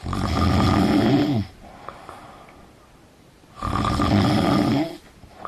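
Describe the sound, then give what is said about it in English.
Light, rhythmic snoring: two loud, rasping snores, each about a second and a half long, with a quiet pause of near-silent breathing between them. “Voigt says when snoring is light and rhythmic, it may be annoying, but it's not a problem. It tends to sound like this.”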